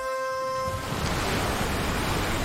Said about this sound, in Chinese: 大海慢慢醒来，一艘艘渔船排着队离开港湾，驶向未知的蔚蓝秘境。